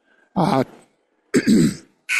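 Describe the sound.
A sports commentator clears their throat in three harsh, raspy bursts separated by short silences, with the last burst cut off at the end.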